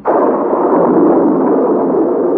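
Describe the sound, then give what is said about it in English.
A thunderstorm breaks over a sea inside a vast underground cavern. A sudden loud crack opens into a sustained, dense roaring rumble that holds strong throughout. “The professor had scarcely spoken when the storm burst.”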